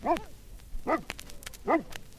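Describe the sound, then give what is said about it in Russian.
A Newfoundland Landseer search-and-rescue dog barks three times, with full, harmonic barks evenly spaced about a second apart and faint clicks in between. “Это Кера, ее порода Ньюфаундленд Лензер. Даже по голосу можно определить, что собака она добродушная, рассудительная.”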